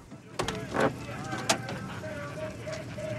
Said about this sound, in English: Ruth opens the door, leading Edith by the arm.